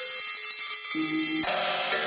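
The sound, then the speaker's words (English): Bell-like metallic percussion from a contemporary concert work sounds with sustained, shimmering tones. Long overlapping resonances change in a couple of steps as new strikes enter. “this is the sound of the earth. I've always been attracted to bell-like sounds. The title, Resounding Earth”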